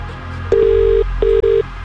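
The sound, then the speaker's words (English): Ringback tone of an outgoing telephone call: a low, steady electronic tone sounds once long, then twice in quick short bursts, with quiet background hum between. “We're making this call right now. And you need to answer within 5 rings.”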